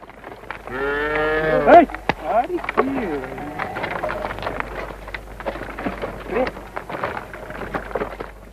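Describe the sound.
Cattle lowing in a farm shed, one long, drawn-out moo near the start, followed by people talking over quieter rustling and shuffling.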